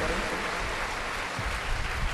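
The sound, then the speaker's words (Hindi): Applause welcoming a guest at a Hindu religious discourse, a dense, continuous wash of clapping from many hands, steady and even throughout. “एक बार जोरदार ताली बजा करके रास बिहारी लाल का स्वागत करें।”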